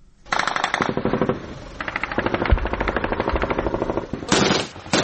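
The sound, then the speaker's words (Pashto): Dense bursts of light and heavy gunfire from a battle between Afghan security forces and ISIS fighters in the Sayed Ahmad Khel area of Kot district. Rapid automatic fire rattles almost without pause, with heavier, louder bursts toward the end. “دا د کوټ ولسوالۍ د سید احمد خیلو په سیمه کې د افغان امنیتي ځواکونو او د داعش وسلوالو ترمنځ د مخامخ جګړې د سپکو او درنو ډزو غږونه دي.”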